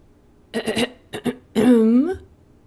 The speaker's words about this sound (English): clearing his throat, he said,